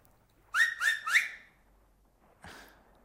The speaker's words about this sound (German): auf meinen Fingern pfeife ich 3-mal